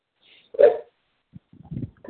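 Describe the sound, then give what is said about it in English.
Dogs barking: one sharp, louder bark comes first, then a few shorter, softer barks and yips follow in quick succession. No voices are heard. “And, my dogs are starting to bark.”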